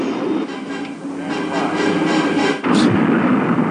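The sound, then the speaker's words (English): The Death Star explodes in a Star Wars video game, a dense, sustained rumbling roar that breaks into a sharper, louder blast near the end. “Those are my favorite kind of fireworks. When the Death Star blows up?”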